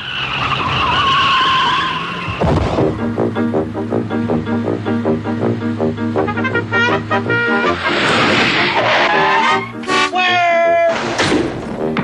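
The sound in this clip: Car tires squealing and skidding as a car is driven wildly around in a Wendy's TV commercial, loud shrill screeches repeated throughout, with a brief gap near the start.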